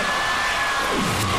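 A concert audience at a classical music concert applauds and cheers in a dense, steady wash of noise that holds at an even level throughout.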